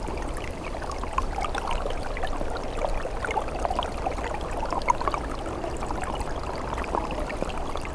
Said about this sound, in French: Un filet d'eau se fraye un passage sous la glace.